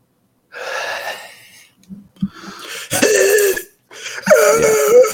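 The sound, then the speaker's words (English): Wheezy, rasping breaths and a harsh cough come from a person whose throat tightens. The strained breaths are loud, with brief pauses and small catches between them. “just randomly my throat will close up a little bit and I'll just all have wheezy breaths”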